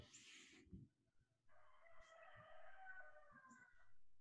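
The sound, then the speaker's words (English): A rooster crows once in a long, drawn-out, tonal call that holds steady for a few seconds after a brief noisy rustle, fairly faint and with no talking. “That was Peter, our rooster in the background, throwing you off”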